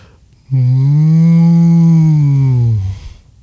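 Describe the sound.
A deep, drawn-out cow moo comes from a tilted moo can toy. It is one steady, low lowing call of about two and a half seconds that sags in pitch as it fades, heard alone.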